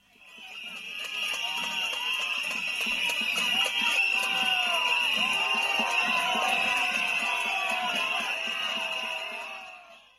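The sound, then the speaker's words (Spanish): Protesters at an education march in Huesca whistle at Azcón: a loud, sustained mass of shrill, piercing whistles over crowd noise, swelling in at the start and easing off at the end. “Y lo que estáis escuchando es la imagen del día, una pitada azcón en Huesca.”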